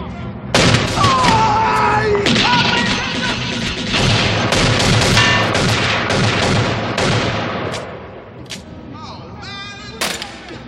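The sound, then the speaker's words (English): A large weapon fires in a film scene and blows up half a jail. Loud, dense booms and crashing blasts overlap, a man yells, and the din thins out toward the end with a final sharp burst. “And with that, he shoots a large weapon and blows up half the jail.”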